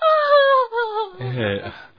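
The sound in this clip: A person cries over a child who will not wake in a dramatized Bible story, with loud whimpering sobs whose pitch wavers and slides downward before breaking into rougher, shaky crying.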